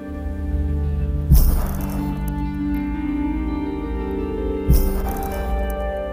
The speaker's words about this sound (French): Alors la coquille Saint-Jacques, ça fait plusieurs types de bruits, dont un qui est caractéristique, qui correspond à un bruit de turbulence.